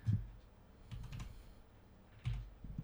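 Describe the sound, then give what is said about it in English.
Computer keyboard typing as a country name is entered into an online geography quiz: a few short bursts of quick key clicks, fairly faint, with no talking. “So you type in Canada. Just type in Canada.”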